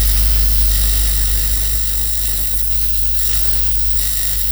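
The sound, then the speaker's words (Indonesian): Sewing gives a steady mechanical whirr over a constant low drone, loud and even from start to finish, with no voices. “Iya, tunggu sebentar sayangnya. Mama habis jahit baru bantu adik.”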